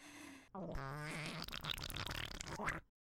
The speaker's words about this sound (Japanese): おなら止まんなくなっちゃった。